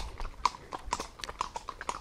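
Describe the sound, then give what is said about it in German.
Hooves of a horse clip-clop along a trail heading uphill through green pre-Alpine hills, a steady walking rhythm of many soft, quiet taps with no talk over them. “ich bin die meiste Zeit damit beschäftigt, mein Pferd Picasso davon abzuhalten, sich ein paar grüne Blätter irgendwo abzuzupfen.”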